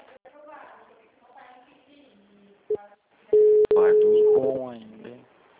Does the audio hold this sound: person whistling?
no

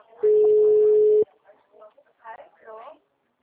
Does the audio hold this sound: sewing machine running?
no

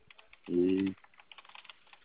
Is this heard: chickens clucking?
no

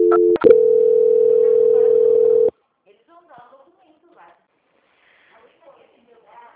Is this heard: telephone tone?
yes

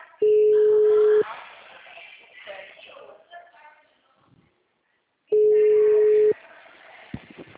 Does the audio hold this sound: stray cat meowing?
no

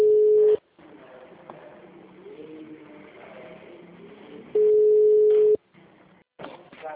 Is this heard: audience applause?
no

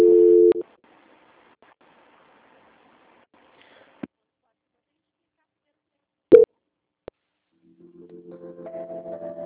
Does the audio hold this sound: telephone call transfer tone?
yes

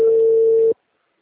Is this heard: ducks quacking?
no

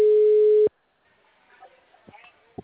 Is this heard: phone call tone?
yes

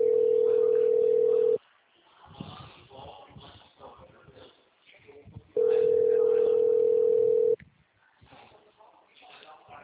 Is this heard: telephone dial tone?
yes

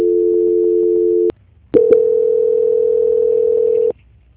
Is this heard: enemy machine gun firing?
no

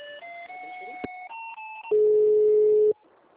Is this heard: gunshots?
no

